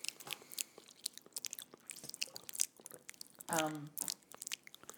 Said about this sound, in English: What's that noise? It's my drink bottle. I just wanted to do it into the mic so that Andrew could hear.